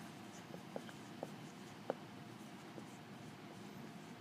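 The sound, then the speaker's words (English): Faint scratching strokes and a few light taps as names are written up on a board in a quiet room, with no talk. “So I'm going to write them up here.”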